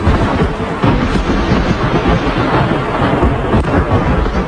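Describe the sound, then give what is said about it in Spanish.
Thunder from one of many lightning strikes in a storm over southern Castilla y León, a loud, continuous rolling rumble that stays heavy and dense from start to end without a break. “Así suena uno de los 1000 rayos que cayeron en el sur de Castilla y León el pasado martes.”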